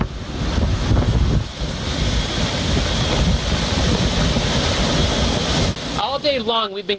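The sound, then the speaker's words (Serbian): Heavy rain and strong wind lash a flooded Miami street in Florida during a hurricane, making a loud, unbroken roar of wind and water. A voice speaks briefly near the end. “Čitavog dana zasipaju nas jaka kiša i vetar koji obara drveće.”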